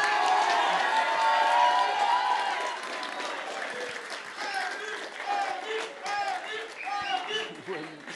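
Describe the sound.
Audience cheering and applauding for performers at a show, a dense loud wash of clapping and shouts that gradually thins, with voices calling out through the later part.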